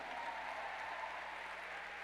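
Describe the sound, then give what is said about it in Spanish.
Church audience applauding during a service, a faint, even, continuous patter of many hands with no clear peaks, over a low steady hum. “Y dale un aplauso al Señor.”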